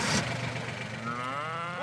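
Mooing from a German Angus beef cow on a farm: one drawn-out, low, tonal call that swells and rises in pitch toward the end, over a steady low background rumble.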